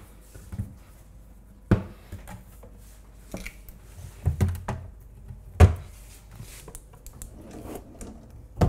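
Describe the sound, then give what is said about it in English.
Cabinet doors are opened one after another during a home inspection, giving a few sharp knocks and thumps at irregular intervals over a faint, quiet background. “So we're gonna open up all the cabinets.”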